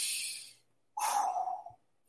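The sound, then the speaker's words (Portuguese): Deep breathing during a breathing exercise, with a book resting on the belly: a hissing breath, a short pause, then a longer, fuller airy breath that fades out. No voices. “vai botar o, o, o, o livro aqui em cima e vai puxar o ar.”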